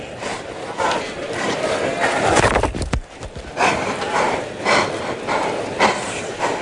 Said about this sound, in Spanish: el ruido es porque lo tenemos otra vez en el burladero de abajo nuestra. Y está la dirección del toro.